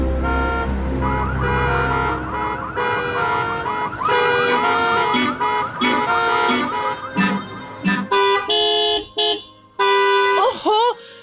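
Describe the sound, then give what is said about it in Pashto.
Car horns honking in traffic, a loud layer of sustained and warbling tonal blasts overlapping one another, then several short, choppy honks near the end. “بیبیپ بیبیپ هارنونه وایي”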